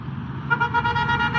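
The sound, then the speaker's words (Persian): A car horn gives a few quick toots over steady background noise, beside a street vendor frying cutlets. “این ماشین هم خوشش اومد، یه چند تا بوق زد.”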